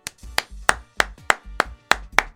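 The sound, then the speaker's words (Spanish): Applause for a guest: eight sharp, loud hand claps at an even, brisk beat, each a crisp smack with a quick decay and short silences between, no voices. “Yo, permiso, antes que todo, me voy a dejarte aplaudir primero.”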